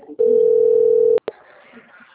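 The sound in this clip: A telephone dial tone sounds while a call is being placed: one steady, even mid-pitched tone lasts about a second and cuts off abruptly, followed by a couple of sharp clicks and faint background noise.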